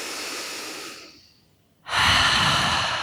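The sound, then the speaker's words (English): Deep breathing through an open mouth comes as two long, airy breaths separated by a brief quiet pause. The second breath starts abruptly and is louder and rushing, breathy and unvoiced. “a big exhale out through an open mouth. Really make a sound. Let's do this 2 more times. Deep inhale and exhale it out.”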